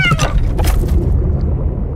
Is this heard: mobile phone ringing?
no